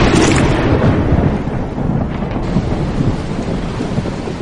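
Thunder rumbles through a pouring, heavy rainstorm at a cave entrance, a loud, continuous, dense roar with deep low rumbling throughout and no distinct breaks.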